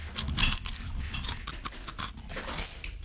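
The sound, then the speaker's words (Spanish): Eating crunchy Tosti snack chips: many close, crisp crunches and chewing sounds in an uneven run, loud and bright, with no talking. “¿Saben qué estoy comiendo? Estás comiendo una zanahoria. Las tosti. Te detesto porque me pegaste ese vicio. Yo estoy comiendo tosti. Estoy comiendo unas tosti.”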